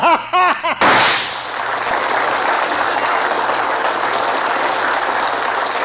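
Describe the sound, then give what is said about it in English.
A single sharp gunshot as a man shoots himself on a stage, cutting in after a brief voice and followed by a long, steady wash of noise. “With a little warning, Mr. Successful Businessman turned the gun to his temple and blew half his head away.”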